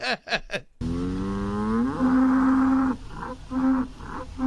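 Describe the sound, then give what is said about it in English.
Ankole cattle moo in a long, loud, low call that climbs in pitch and then holds steady, breaking into a few shorter pulses at the end. A few brief sounds come just before it. “Here is the sound of an Ankole moo.”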